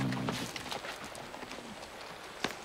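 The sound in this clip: Horse hooves clip-clop in a steady series of sharp, irregular knocks at an easy walking pace, with one louder strike near the end.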